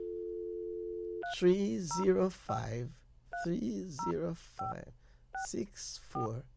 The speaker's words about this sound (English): Always call it again. So let's dial it again, right?